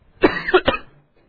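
Coughing and throat clearing: a short run of a few harsh, fairly loud coughs in close succession, heard alone with no talk over them.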